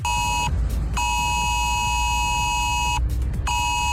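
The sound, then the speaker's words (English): An emergency warning alert tone sounds on a mobile phone: a loud, harsh electronic tone with two layered pitches, pulsing in long and short bursts broken by brief gaps, over a low rumbling background. “Ireland could be getting an emergency warning system which would warn us about things like extreme weather on our phones.”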